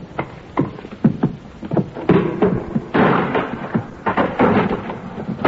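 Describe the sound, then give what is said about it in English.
Heavy wooden thuds, bangs and creaking as a crowbar pries open a wooden shipping crate. The bursts are loud and irregular, with knocks and longer straining scrapes between them. “Okay, then I'll open one. Okay. Stay away from the crowbar. I'll pick it up myself.”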